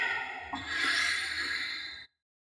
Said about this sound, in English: Through your nose. Exhale.